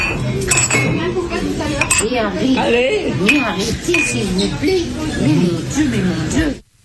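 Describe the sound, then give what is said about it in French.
Glasses clink in a toast at a family table among older women, several light chinks ringing over lively overlapping chatter. “J'ai l'impression que il y a du chin-chin. Ok. Cling, cling, cling, les mamies, elles trinquent.”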